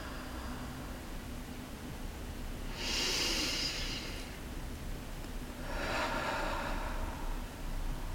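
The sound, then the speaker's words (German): Slow, deliberate breathing during a guided mindfulness exercise: two long, airy breaths, each swelling and fading, over a steady soft background hiss. “atme gerne ein paar Mal bewusst ein und aus.”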